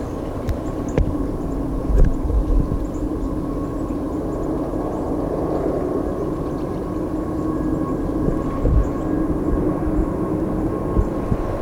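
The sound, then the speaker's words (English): A train passes with a low, continuous rumble that holds steady and fairly even throughout, with a few brief louder bumps. “Guess I'm gonna have to wait a bit for this train.”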